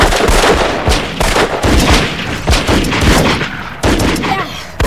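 A volley of gunshots cracks out as many loud, sharp shots fire in quick succession. The bursts overlap into a dense, continuous barrage that barely lets up for the whole clip.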